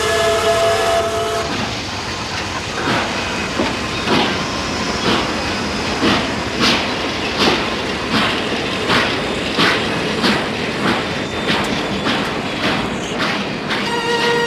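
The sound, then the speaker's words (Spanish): A train pulling away: a brief tonal horn-like sound at the start, then a steady, regular clickety-clack of wheels over rail joints under continuous rumbling noise. “El tren arranca y Luisa”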